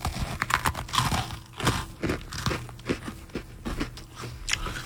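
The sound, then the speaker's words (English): Open-mouthed chewing of chicken and waffles, many wet smacks and crunchy bites in an uneven rhythm, loud and alone without talk. “Which one is this? Chicken and waffles. Okay. You know, I've said this many times on the show. People listening to radio love to hear personalities eat on the air. I'll eat with my mouth open to get the sounds.”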